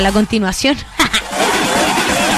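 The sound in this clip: A car engine revs with a rising roar after a short stretch of talk, a whining tone climbing steadily in pitch toward the end.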